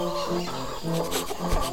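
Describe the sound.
Hens cluck inside hen sheds on a farm, a few soft, irregular clucks over a steady low murmur from the flock, fairly faint overall.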